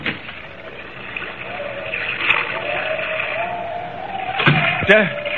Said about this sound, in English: Pretty rough weather tonight. Waves are breaking clear over the decks.